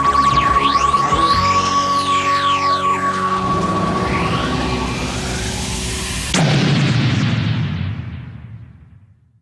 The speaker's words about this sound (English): Alien vessel has been destroyed, Captain.